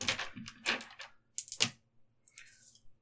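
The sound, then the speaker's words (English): Eight four-sided dice rolled together: a quick clatter of sharp, hard clicks in a few short bursts, fairly quiet, with no talk. “Eight D four hit dice. Ooh, roll those hit dice.”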